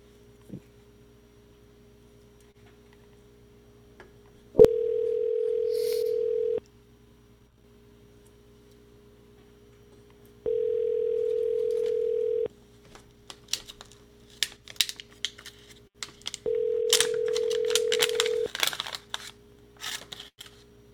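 Telephone line tones on a prank call: three steady, mid-pitched beeps, each about two seconds long and separated by silence, with clicks and crackling noise building near the end.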